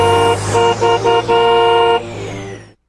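Car horns honk in slow traffic: several short blasts and then a longer one, loud and steady in pitch, over a low engine rumble. Fainter horn tones trail off at the end.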